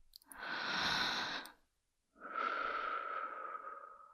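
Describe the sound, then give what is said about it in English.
A deep, slow breath taken in a calm, whispered setting: two long, soft airy breath sounds separated by a short silent pause. There is no talking. “Listen into my whispers. Take a deep breath with me.”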